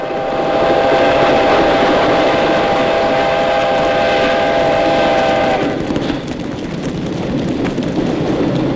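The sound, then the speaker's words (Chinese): A munitions train rumbles along a railway with loud, steady clattering, while sustained horn-like tones ring over it for about the first five and a half seconds before the rolling noise continues alone. “他们用敌人的军火列车炸毁了临城车站。”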